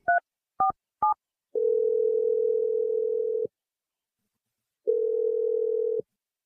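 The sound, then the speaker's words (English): A telephone call is placed: three short, clipped dialing tones come in quick succession, then two long, steady ringing tones separated by a silent pause. “I'm going to dial Naomi right now, and hopefully she picks up.”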